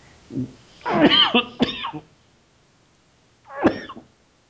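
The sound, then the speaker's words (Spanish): A person coughing during a conversation: a harsh cluster of coughs, a pause, then one more cough burst, with no talk over it. “Ya mejor no lo digo porque ya me dio tos otra vez.”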